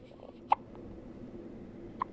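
Two brief hiccups from a newborn baby held in a hospital bed the day after birth, faint, with a long quiet gap between them.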